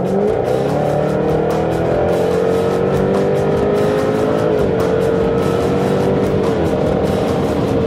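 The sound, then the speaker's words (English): A 495-horsepower V8 race car accelerates hard down the straight of a twisty road course toward 140 mph. The engine makes a loud, steady, unbroken roar from start to end. “what you hear is 495 horsepower V8 that's pushing us up to 140 miles an hour on that straight.”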